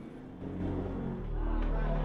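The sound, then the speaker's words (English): Car engine rumble as the car swerves onto a slip road for Manchester, a steady low drone that grows slightly louder and fuller partway through. “The car swerves onto a slip road for Manchester.”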